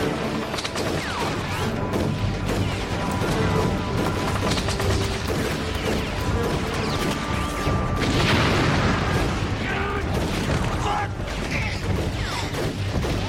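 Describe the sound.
Machine-gun fire in a radio drama: a dense, continuous din of rapid gunfire and crashing noise that stays loud throughout, with voices mixed in.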